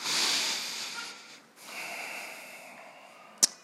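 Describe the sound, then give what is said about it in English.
A deep breath taken during a church sermon: a soft, drawn-out breathy rush, then a brief dip and a second, quieter breath, ending with a single sharp click. “Just take a deep breath.”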